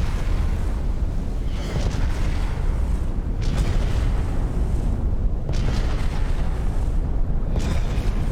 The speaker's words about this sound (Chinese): 这一波下来，第一波的深水炸弹并没有把一二十三击沉，然后让咱们让沃克号前去进行第二波的深弹的攻击。